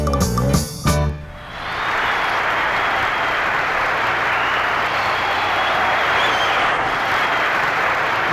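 Audience applause at a talent show follows the close of a sung comedy act: the music cuts off, then a sustained, even roar of clapping from the crowd continues steadily for several seconds.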